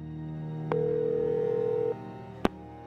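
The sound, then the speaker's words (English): A telephone call is placed: after a low line hum, a steady telephone tone sounds for about a second, then drops away and is followed by a single sharp click. “Then she dialed the last person she could think of, Floyd Zick.”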